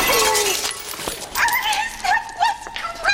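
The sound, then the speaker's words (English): A brief crash of breaking crockery, a plate-smash sound effect for an urn striking someone's head, cuts sharply through a busy mix of wavering, howl-like vocal tones. “Bazoo in the head with the urn makes the breaking plate sound effect from Wet Hot American Summer, or alternatively, the flower pot crashing sound effect from the Clerks cartoon.”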